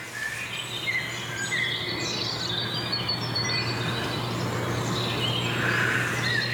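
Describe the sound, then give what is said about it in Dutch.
European robins sing in a dawn chorus, bright thin warbling phrases and chirps overlapping over a faint steady bed of insect-like buzzing, at a moderate, even level with no talking. “Nou, de roodborsten zijn nog steeds lekker. Voeren nog steeds de boventoon. Ja, het meeste wat je nu hoort, dat is roodborst.”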